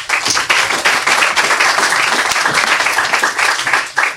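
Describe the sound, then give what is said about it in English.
Audience applause for the next author at a reading event: dense, steady clapping from many hands that holds for about four seconds, dipping briefly just before the end. “Make some noise for our next author, Niall O'Connor.”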